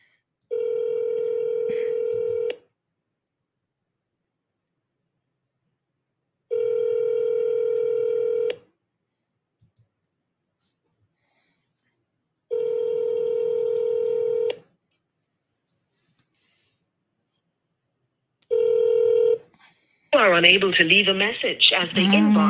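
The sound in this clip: Telephone ringback tone after dialing: four long, even rings, each about two seconds with regular pauses between them, followed by a recorded voice answering at the end.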